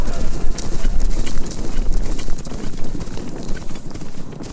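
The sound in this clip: Horses gallop hard in a dense, rapid drumming of hoofbeats that runs loudly and without a break from start to end. No voices are heard.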